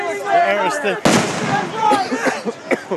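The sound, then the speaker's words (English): A sharp bang of rubber bullets and smoke grenades being fired at a street protest: one loud, abrupt burst cuts through raised voices, with people talking and shouting before and after. “They are firing rubber bullets and smoke grenades.”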